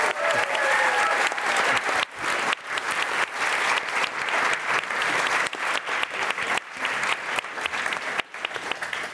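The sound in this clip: Audience applause, dense and loud sustained clapping that carries on without a break for the whole stretch, with a few brief dips in intensity.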